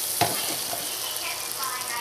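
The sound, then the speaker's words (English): Butter sizzles as bell peppers and onions are sautéed in a pressure cooker: a steady, bright hiss with a brief clatter near the start and no talk. “So I'm gonna put this much butter in here, and I'm gonna saute the bell peppers and onions just a little bit, but not a whole lot, until they're translucent.”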